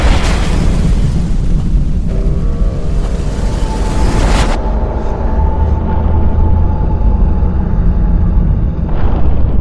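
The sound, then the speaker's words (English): A rocket launch vehicle explodes on its launch pad, producing a loud, sustained roar of rumbling and crackling noise that runs unbroken for nearly ten seconds; its bright hiss thins partway through while the deep rumble continues. “At which point this launch vehicle explodes spectacularly on the launch pad.”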